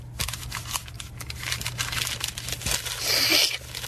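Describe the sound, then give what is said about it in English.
A paper letter is folded and slipped into an envelope, making continuous dry rustling and crinkling with a louder papery swish near the end, over a low steady hum. “Well, we'll just fold this letter up. Real nice. Put it in an envelope.”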